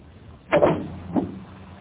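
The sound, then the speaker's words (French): A car bonnet being opened at a garage on a car that has lost all its brake fluid: two dull mechanical clunks, the first louder and longer, the second softer, with no talk. “Voyons ça. Ouvrez votre capot.”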